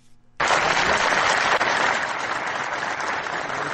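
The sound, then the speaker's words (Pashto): Applause breaks out at a large public gathering after the acting governor of Farah speaks on the benefits of polio vaccination. Dense, loud clapping starts abruptly after a brief quiet moment and carries on steadily to the end. “دلته یو لوی غونډه رابلل شوی او د فراد سرپرست والی محمد آصف ننګ هغه خبرې په چکچکو بدرګه شوې”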